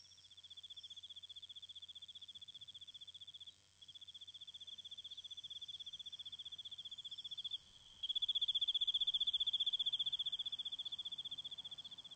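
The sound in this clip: Crickets chirp at night in a continuous, high-pitched, rapid trill. It stays steady and fairly loud, with two brief gaps and a slightly stronger stretch near the end.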